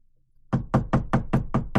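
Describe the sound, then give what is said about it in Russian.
Knocking on a wooden door: seven quick, evenly spaced raps, firm and hollow, after a moment of near silence. “Раздался стук по деревянной двери.”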